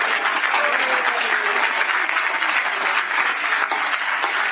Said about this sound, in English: Do you know what we're doing? We're clapping our hands.